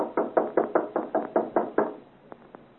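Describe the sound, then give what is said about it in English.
Loud knocking on a door to wake someone: a quick, even run of heavy raps, then a short pause and two faint, lighter taps. “Knock loudly. Wake the gentleman up.”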